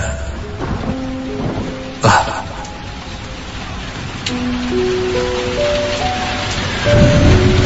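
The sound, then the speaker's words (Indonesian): Rain falls onto a surface as a dense, continuous hiss that grows slightly louder toward the end, with one brief, sharper burst partway through. “hujan mulai turun perlahan hingga akhirnya cukup deras.”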